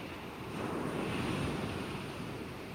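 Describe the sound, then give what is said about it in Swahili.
Ocean waves wash onto the shore in a steady, soft roar of surf mixed with wind, swelling slightly midway and then easing off. “Ni sauti ya mawimbi hiyo ambayo yanafanya baadhi ya watu kwenda ufukweni kufurahia”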